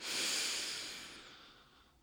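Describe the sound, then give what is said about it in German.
A deep, deliberate inhalation through the nose during a guided breathing exercise: one long airy intake that is loudest at the start and gradually tapers over about two seconds, with no talking. “Und dann nochmal einatmen.”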